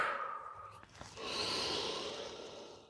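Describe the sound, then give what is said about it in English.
Soft, airy breathing during a guided relaxation exercise, with a brief breath near the start and then a longer, sustained breath that swells and slowly fades. “Breathe through it.”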